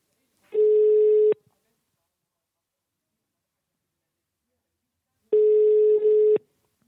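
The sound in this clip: Ringback tone of an outgoing telephone call: two steady mid-pitched rings, each just under a second long, separated by several seconds of silence.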